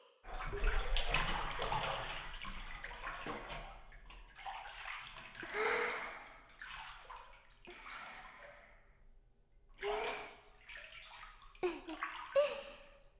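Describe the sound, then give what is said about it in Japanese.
Hot spring water running into a bath: hot water pours and splashes in uneven surges and sloshes, rising and falling in loudness throughout, fairly quiet overall. “結構いいお湯が出てるみたいでよかったです。”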